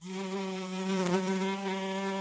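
A house fly buzzes in a steady, low, droning hum that runs unbroken through the whole clip, swelling slightly near the middle, with no other sounds.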